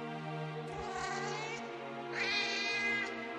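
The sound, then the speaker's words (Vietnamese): A cat's drawn-out, wailing meow at night, like a crying baby: a faint, steady harmonic cry held for several seconds that swells a little louder toward the end. “Trời thì ghê quá, tiếng mèo kêu mà như tiếng con nít khóc.”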